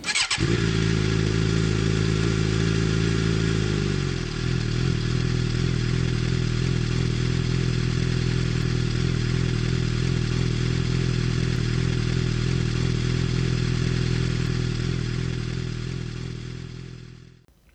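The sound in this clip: An old engine bursts to life with a sharp start, then settles into a loud, steady idling rumble for about seventeen seconds. Its low note drops slightly after a few seconds, and the sound fades out at the end.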